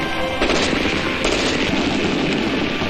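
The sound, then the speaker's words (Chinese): Dense, sustained gunfire from a combined volley of Type 56 submachine guns, Type 56 semi-automatic rifles and Type 56 light machine guns during an army squad shooting demonstration. It forms a loud, continuous crackling roar with no clear gaps between shots. “使用56式冲锋枪、56式半自动步枪和56式轻机枪的组合进行了射击表演。”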